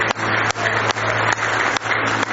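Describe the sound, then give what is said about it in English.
A church audience claps its hands in praise during a service. The applause is dense and steady, with a low, constant hum underneath. “Give the Lord a hand clap of praise if you love Him.”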